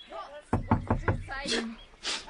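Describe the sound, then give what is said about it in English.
Knocking on a door: four sharp, evenly spaced raps in quick succession, with voices talking before and after them. “There, you did it again. There'll be no point in knocking.”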